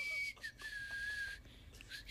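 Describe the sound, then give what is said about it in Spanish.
A person whistles without moving the mouth: a thin, clear, high tone that holds steady and sags slightly in pitch, breaks off, and returns briefly at the end. “Claro, no mueve la boca y hace como que chifla.”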